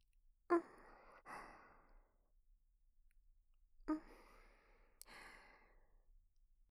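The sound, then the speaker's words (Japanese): Gentle breathy blowing into an ear to clear dirt during ear cleaning. Four soft puffs fall in two pairs, quiet against near silence. “しっかりフーフーしないと汚れが取りにくいんだよ。もう少しだから我慢してね。”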